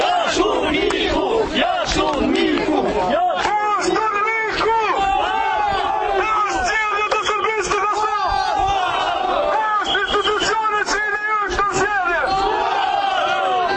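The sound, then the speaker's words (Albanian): Protesters in Kosovo chant loudly against UNMIK and the Kosovo government, a dense mass of shouted voices rising and falling in rhythmic bursts that continues unbroken throughout. “ndërkaq protestuesit në vazhdimsi kanë brohoritur kundër UNMIK-ut, qeverisë së Kosovës, kundër Pakos së Atisarit dhe kushtetutës së Kosovës dhe brohoritje tjera që mbështesin vetëvendosjen dhe thirrjet UÇK.”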